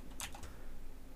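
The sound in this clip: A few quiet, quick keystroke clicks from typing on a computer keyboard come in one short burst near the start, then fade into faint steady background noise.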